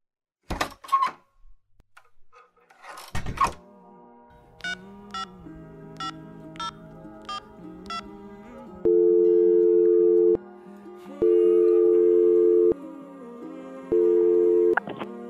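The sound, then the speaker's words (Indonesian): A telephone call being dialed, with the line tone. A few clattering knocks come first, then six short keypad beeps over a low hum, then three long, steady ringing tones. “Bu, Pak, bentar ya, saya nelfon dulu nih keluar.”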